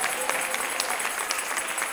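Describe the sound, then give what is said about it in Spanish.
Congregation applause at a church service: steady, dense clapping with a few sharper individual claps standing out throughout. “si le va a dar un aplauso al Señor, déselo.”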